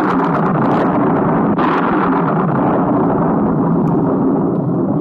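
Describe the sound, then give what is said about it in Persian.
Storm at sea around a ship, with roaring wind and turbulent waves blending into a loud, dense, continuous roar that holds steady throughout. “از اعماق دریا قرش بلند شد، برقا میون ابرای بزرگ درخشیدن و امواج متلاطم شدن.”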